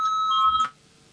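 A parliament voting bell rings before a vote: a single bright electronic tone with ringing overtones, steady and fairly loud for just over half a second before it cuts off abruptly.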